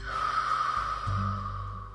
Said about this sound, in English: we'll begin with five very deep breaths in through our nose, out through our mouth